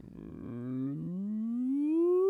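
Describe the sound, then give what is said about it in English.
A sine wave sweep for room measurement starts low and rises steadily in pitch as one clean tone, growing slightly louder as it climbs. “So it'll start low, you'll hear the sine wave go,”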